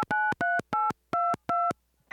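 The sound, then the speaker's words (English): A telephone is dialed with five evenly spaced, clear keypad tones. Each short dual-pitched beep is followed by a brief gap, and silence comes after the last one. “I know! I will just call over to the astronaut village.”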